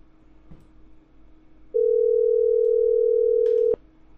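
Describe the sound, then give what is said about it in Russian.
One steady mid-pitched telephone tone lasts about two seconds after the other side hangs up, starting abruptly and ending with a sharp click over faint background hiss. “Антиколлектор Воронеж, Короче, он меня услышал и сейчас отрубил телефон.”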